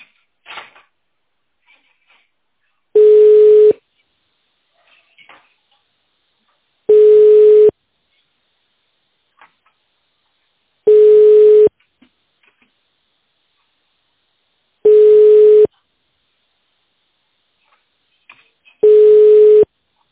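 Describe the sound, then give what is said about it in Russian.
A telephone busy signal marks an engaged called line. Five evenly spaced mid-pitched tone bursts come about four seconds apart, each under a second long, with faint clicks in the gaps. “Аппарат вызываемого абонента занят.”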